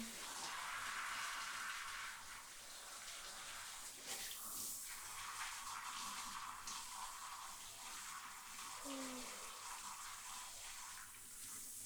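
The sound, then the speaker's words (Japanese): Water pours steadily from a tap or shower as a body is rinsed off in the bath, making a soft, continuous splashing hiss for about twelve seconds with small shifts in the flow. “それじゃ、流しちゃうね。”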